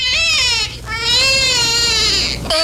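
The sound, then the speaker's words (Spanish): A newborn baby girl cries in loud, high-pitched wails with a strained, ragged tone, broken by a couple of short pauses for breath. “¡Escucha al bebé!”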